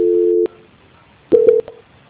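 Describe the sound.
Telephone tones during a call transfer to a quality-control line: a steady mid-pitched beep cuts off, and after a quiet pause a short burst of stuttering beeps and clicks follows.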